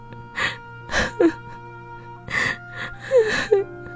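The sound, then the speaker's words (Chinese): A woman bursts into tears, with several breathy, gasping sobs broken by short, high, wavering whimpers over a faint steady hum. “三千代失声哭了出来。”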